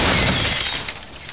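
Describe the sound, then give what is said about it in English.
Glass coffee table smashing after being thrown off a 20-story building: one loud burst of crashing, shattering noise that starts at full strength and thins out over about a second, with no voices. “This is the sound of a brand new outdoor grill being hurled off a 20-story building. now a stylish glass coffee table,”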